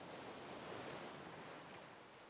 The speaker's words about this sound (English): Its gentle lullaby of crashing waves, carried by the salty breeze